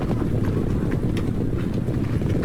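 Hooves of Northern Wei cavalry marching quietly through a remote valley where the Taihang Mountains meet the North China Plain: a dense, steady clatter of many hooves that stays loud and even, with a low rumble and a wind-like hiss.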